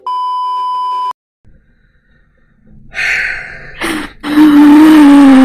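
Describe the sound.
A censor bleep: one loud, steady, high electronic tone lasting about a second. A pause of near silence follows, then breathy, snorting noises.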